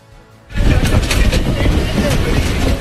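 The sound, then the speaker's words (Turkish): Loud, steady rumble of a crowded passenger train in Mumbai, India, breaking in abruptly after a quiet half-second, with a broad rush of crowd voices mixed into the noise. “Sırada o meşhur kalabalık tren görüntülerinden biri var. Yer tabii ki Hindistan.”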